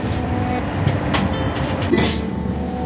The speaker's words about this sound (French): Mesdames et messieurs, nous arrivons dans quelques minutes en gare d'Amboise. Prochaine gare d'arrêt Amboise.